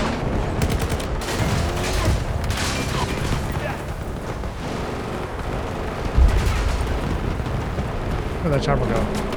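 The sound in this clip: Video game gunfire: dense, continuous bursts of rapid shots and blasts that form a loud, unbroken barrage, with a sharper hit about two-thirds of the way through and players talking over it.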